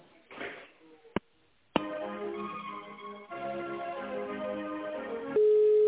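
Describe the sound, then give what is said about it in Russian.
Telephone line sounds play while a call is transferred: a sharp click, then a sustained band-limited tonal passage with layered pitches, ending in a steady, louder single tone. “Секундочку, сейчас она поставится, я вас соединяю.”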